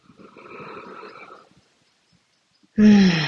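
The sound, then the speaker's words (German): A slow, deep breath drawn into the belly, airy and soft for about a second and a half, then silence before a voice briefly starts at the end. “Tiefe Atemzüge in den Bauch.”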